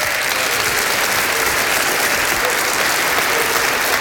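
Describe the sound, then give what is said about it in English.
Dense, steady audience applause fills a morning church service as the audience claps in praise to the Lord, loud and sustained, with no voice standing out. “Well, can we give the Lord a hand of praise this morning?”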